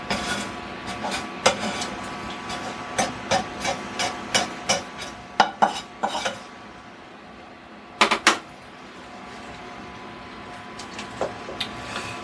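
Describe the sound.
Bacon frying in a pan as it is stirred and pushed, with a steady sizzling hiss under many sharp scraping and tapping clicks from the utensil. The clicks come thickly at first, then a close pair, then only the softer sizzle.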